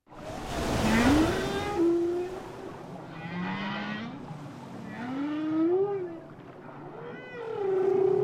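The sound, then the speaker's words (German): Whale song with water noise behind it: moaning tonal calls glide up and down in pitch, several long rising swoops over a constant rushing water wash, with no talk. “aber man hört da so Wasser im Hintergrund. Wassergeräusche dazu. Walgesänge.”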